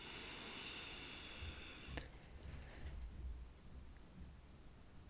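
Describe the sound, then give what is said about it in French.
A deep breath drawn in through the nose during a guided calming exercise: a steady, airy rush for about two seconds, then fading into quieter, softer breathy noise. “Et là, tu prends une ou deux grandes inspirations. J'inspire par le nez.”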